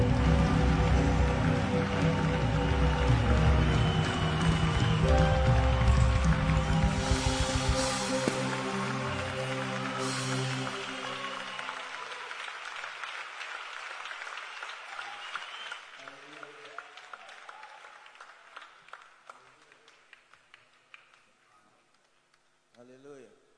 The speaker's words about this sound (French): As you put your hands together.